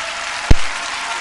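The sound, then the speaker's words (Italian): Audience ovation after a musical performance: a steady wash of clapping that runs the whole short stretch, with one low thump near the middle. “Ovazione da parte del pubblico.”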